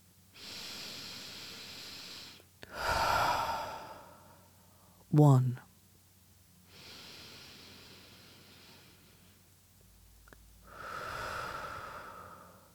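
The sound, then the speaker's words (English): Deep breathing, a few slow, drawn-out breaths in and out, each a soft, airy rush of moderate loudness separated by short pauses, with one brief sharper intake partway through. “take a breath, find your lungs, and let's do 8 deep breaths together.”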